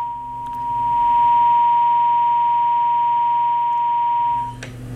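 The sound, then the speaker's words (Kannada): A phone line gives a steady, single-pitched tone after a call is cut off. The tone holds loud and unchanging for about four seconds, then stops abruptly. “ಕರೆ ಬಹುಶಃ ಕಟ್ಟಾಗಿದೆ ಅಂತ ಕಾಣಿಸುತ್ತೆ.”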